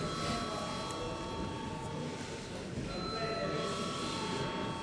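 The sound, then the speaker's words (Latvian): An electric bell rings in a parliament chamber before a vote, a continuous, even ringing that holds at a steady level for the whole stretch. “Lūdzu zvanu.”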